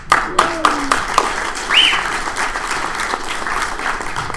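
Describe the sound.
Audience applause at a stand-up comedy show, a steady dense wash of clapping that swells slightly midway and continues without talk.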